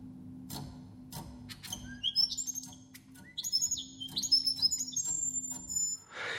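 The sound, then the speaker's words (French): Male and female birds sing during a courtship display, hopping while holding a twig: many bright, high chirps and quick trills, dense and overlapping, over a steady low hum. “les oiseaux et les oiselles chantent à tour de rôle.”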